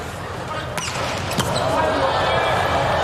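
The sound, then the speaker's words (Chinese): A volleyball serve struck during a match involving Slovenia: two sharp, quick impacts of hand on ball stand out against steady commentary and background noise. “博尔瑙特的发球，”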